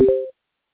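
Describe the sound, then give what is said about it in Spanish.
A voicemail recording tone: one short electronic beep, a steady mid-pitched chord of two tones, that stops cleanly and leaves silence. “Please leave a voice note after the tone.”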